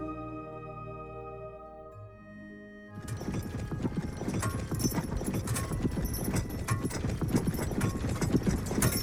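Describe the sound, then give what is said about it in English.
Horse hooves clip-clop in a dense, steady rhythm as a horse-drawn wagon rolls along a lonely road, following a few seconds of soft tonal music at the start. “The carriage rolled lazily along a lonely road below an overcast, dull sky.”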